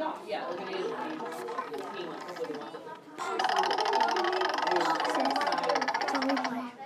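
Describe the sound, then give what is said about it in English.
A prize wheel is spun, giving off a fast, even ticking clatter that starts about a third of the way in and runs steadily to the end, with people talking over it. “you're going to spin the wheel. Go ahead and spin.”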